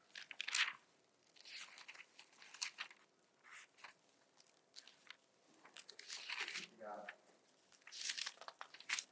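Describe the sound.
Bible pages being turned to Colossians make a series of dry paper rustles and crinkles, with sharper crackling flips in scattered bursts and quieter shuffling between them.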